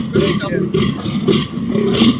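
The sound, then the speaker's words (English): A European fallow deer stag with big antlers calls in four low, throaty, guttural groans. They come in a steady rhythm with short pauses between them. “What kind of deer is that with that little bitty old head? That is a European fallow deer.”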